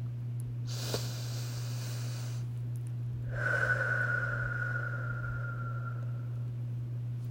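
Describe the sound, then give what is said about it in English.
A slow, deep breath is drawn in and then let out in a longer, soft exhale with a faint whistling tone, over a steady low hum. “So to wrap everything up, I wanted to go ahead and take another deep breath together.”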